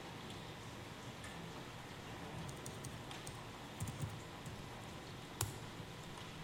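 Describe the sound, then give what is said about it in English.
Faint typing on a computer keyboard as a command is entered, a few sparse, light keystrokes ticking over a steady soft hiss. “I'm going to type out.”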